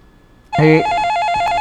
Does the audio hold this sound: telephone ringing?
yes